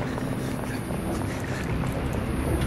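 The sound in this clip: A boat sinking into water, heard as a dense, steady rushing and churning wash that fills the whole clip at an even, fairly loud level without breaks.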